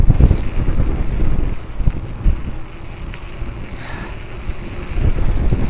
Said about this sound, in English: Whoa, that is like really strong wind.